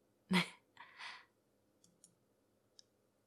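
Computer mouse clicks: a sharp, fairly loud click and a softer double click come first, then a few faint, quick clicks spaced apart in a quiet room.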